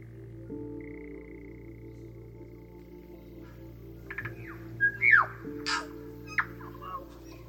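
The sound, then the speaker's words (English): A tui, a native New Zealand bird, calls during a Wellington summer: a faint steady whistle, then a few scattered chirps, squeaks and clicks, over a continuous low droning hum from cicadas. “This is the sound of the call of the tui, which is a very common native bird in New Zealand, with the sound of cicadas in the background.”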